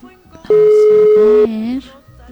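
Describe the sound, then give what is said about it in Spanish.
A single steady telephone tone sounds for about a second as a call is dialed and awaits an answer, loud and pure, with a voice overlapping it and continuing briefly after. “Y por eso es que vamos a hacer la llamada. A ver, veamos si nos contestan, ¿va?”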